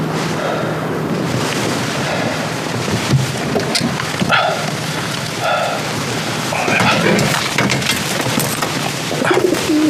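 Carrier pigeons coo in a cage, soft low repeated burbling calls set against a steady, noisy background.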